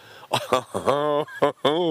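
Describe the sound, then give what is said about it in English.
Canada geese honking at a sunny park point by the water: a few loud, harmonic honks in quick succession, uneven in length, with short gaps between calls. “Yep, here's the Canada geese.”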